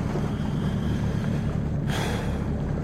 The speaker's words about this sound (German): Das Wasser teilt sich so schön am Bug.